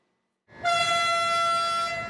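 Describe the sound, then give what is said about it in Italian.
A train horn sounds at a commemoration for five railway workers killed by a train while working on the tracks: one steady, sustained tonal blast that starts abruptly after silence and holds at an even, loud level. “5 fischi per 5 vittime.”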